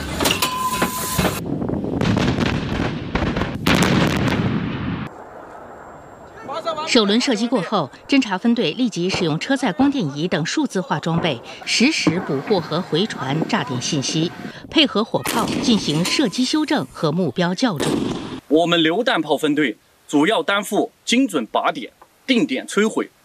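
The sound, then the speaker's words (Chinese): Heavy blasts from a howitzer battery firing a salvo of high-explosive shells on full propellant charge during a live-fire exercise in the hot Gobi desert: a dense run of loud booms over the first seconds, then people talking. “全连一发齐射，放！预备，打！”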